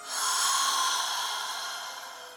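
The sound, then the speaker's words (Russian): A deep inhalation during a guided breathing exercise: one long, airy intake of breath that swells quickly, then tapers slowly over about two seconds, heard alone. “Итак, дышим. Вдох.”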